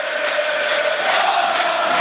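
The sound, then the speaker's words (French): A football crowd roars after a home goal at Stade Diochon in Rouen, a loud, steady wall of cheering and shouting that holds without a break. “Et Valentin Fus qui inscrit son 4e but de la saison. Et ça a totalement réveillé le public de Diochon.”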